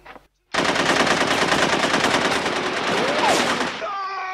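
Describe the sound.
Sustained rapid automatic gunfire from Nazi zombie characters shooting a family inside their home in a film dream scene: one loud, dense, unbroken burst lasting about three seconds after a brief quiet moment, ending in fading ringing tones.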